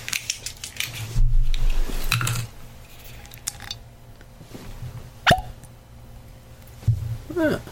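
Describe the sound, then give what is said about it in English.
Peeling the cap off a bourbon whiskey bottle: a few short crinkling, scraping bursts with small creaks and clicks, followed by quieter handling noises. “So I think without any further ado, I will peel the cap here and see what we can get out of it.”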